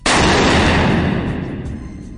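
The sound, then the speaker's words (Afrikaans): .50 caliber rifle firing a single shot: a sudden, very loud blast followed by a long, rumbling decay that fades slowly to the end. “Ons het nou met die 50 cal geskiet, die groot... Dis die grootste geweer wat ek in my lewe nog ooit gesien het.”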